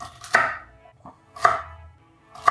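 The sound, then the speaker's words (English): Three sharp, crisp chopping strikes land about a second apart, with a fainter knock between the first two. Each hit stands alone with a short decay, and no voices are heard. “This is the sounds of a chop, everybody.”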